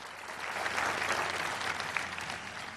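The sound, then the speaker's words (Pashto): Standing delegates at the Republican National Convention applaud Vice President Mike Pence. The clapping is a thick, steady wash of many hands, moderately loud and unbroken for the whole stretch. “البته ټول د غونډې ګډونوال ولاړ دي او چک چک کوي.”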